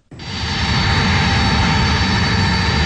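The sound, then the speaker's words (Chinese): A Y-20 transport aircraft landing on a runway: a loud, steady jet engine roar with a high whine on top that swells up within the first moment and then holds evenly to the end. “随着最后一架运20平稳地降落在机场跑道上”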